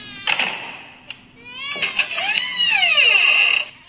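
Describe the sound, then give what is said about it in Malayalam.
An infant cries in a few short wails, then one long, sustained, high-pitched wail with wavering, falling tones through the second half. “ഞാൻ ഈ വഴി വന്നപ്പോൾ കുഞ്ഞിന്റെ കരച്ചിൽ കേട്ടു. എന്താ പ്രശ്നം? ചേച്ചി ഇവ നിർത്താതെ കരയുകയാണ്”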